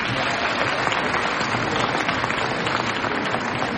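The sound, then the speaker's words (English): Audience applause at a volleyball match, a dense and steady wash of clapping that runs unbroken through the whole stretch at an even loudness. “Give them a round of applause.”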